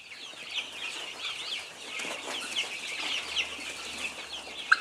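Chickens and chicks cluck and chatter while being fed scattered feed and shell lime. Many soft overlapping calls and peeps form a steady busy layer, and a sharp tap sounds near the end.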